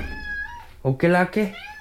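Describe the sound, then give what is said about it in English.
A cat meows a few times in short, high, tonal calls clustered in the second half. “I'm gonna feed the cat.”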